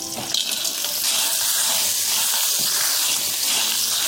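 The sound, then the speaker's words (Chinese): Clams hit hot oil with scallion and ginger slices in a pan, setting off a loud, steady sizzling hiss that swells at the start and holds without letup. “油热了，倒入葱姜片爆香，然后倒入蛤蜊，”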